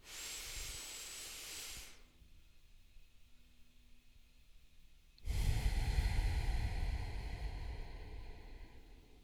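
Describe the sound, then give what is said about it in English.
A deep breath taken during a breathing exercise: a breathy hiss first, then a quiet pause of a few seconds, then a louder, fuller rushing breath that carries on to the end. “Just a little deep cleansing breath to calm your central nervous system, reset, and move some of that oxygen in your body.”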